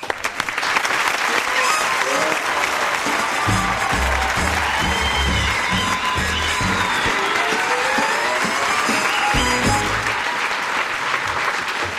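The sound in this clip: Studio audience applause on the Tool Time show greeting a guest, a loud, unbroken roar of clapping that stays at full strength throughout.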